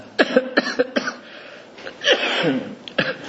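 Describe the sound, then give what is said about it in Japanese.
Persistent coughing from one person: a rapid run of short, sharp coughs, then a longer, rougher hacking burst and a few more quick coughs, loud and alone with no talking. “ちょっと今私すごい咳が出て止まらないので、ちょっと聞きづらいかもしれませんけど”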